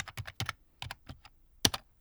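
Typing on a computer keyboard to enter a web search: an irregular run of many crisp key clicks, some in quick bursts with short pauses between them, fairly quiet and with no voices.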